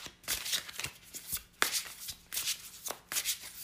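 Shuffling of a pocket-edition tarot card deck: quiet, papery riffles and soft slaps in irregular bursts, many in quick succession, with no voices.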